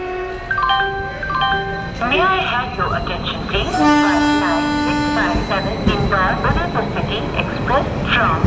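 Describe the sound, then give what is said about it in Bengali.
A train departs from a platform, its horn sounding in several held tones over a dense rumble of rail noise, with voices audible throughout. “Train ছাড়ল।”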